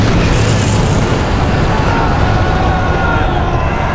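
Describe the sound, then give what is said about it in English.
Magma surging up from deep underground makes a loud, continuous, rumbling roar, thick and dense in the low end, holding steady for the whole stretch. “Yet even in its death throes, the Dactyl had won the day, using its willpower to bring up the magma from the bowels of Ada.”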